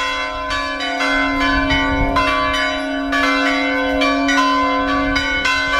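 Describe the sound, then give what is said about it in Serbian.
Serbian Orthodox church bell ringing for a feast day: loud, continuous peals with rich, lingering overtones, strikes overlapping in a steady rhythm over a sustained low hum. “ovako je pozivalo zvono Lovranskog srpskog pravoslavnog hrama vernike na praznovanje prenosa moštiju Svetog oca Nikolaja u Bari, zaštitnika svetinje”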